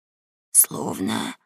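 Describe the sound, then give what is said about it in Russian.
Snoring like a pig grunting, from someone asleep in a barn: a short hissing breath, then a longer low, rasping voiced snore, heard alone. “«Словно свинья хрюкает. Нет, это кто-то храпит, Том». «Храпит? Да где же храпит, Гек?”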